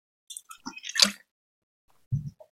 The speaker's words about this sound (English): So I drink it fast, and it tastes like if you drink Coke vanilla flat fast, vanilla Coke fast